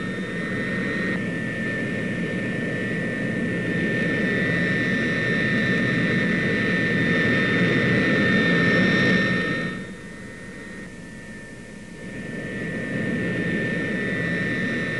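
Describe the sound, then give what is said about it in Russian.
Turboprop aircraft engines running: a loud, steady roar with a high, sustained whine. The roar drops briefly partway through and then rises again. No voices are heard. “Разрешен запуск моторов. Заработали турбовинтовые двигатели.”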